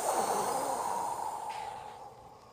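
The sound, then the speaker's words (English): A child lets out one long, slow exhale while pretending to be a dragon breathing fire. The soft, breathy rush starts strong and gradually fades over a couple of seconds. “I take a slow, big breath in. Then I let out all my air to make a bright fire.”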